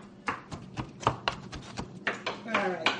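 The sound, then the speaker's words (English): Knife coarsely chopping pitted black olives, many sharp, uneven taps on a board in a loose rhythm, with talking mixed in between the cuts. “Do I chop them or leave them? I would chop them. Okay. Coarsely chop.”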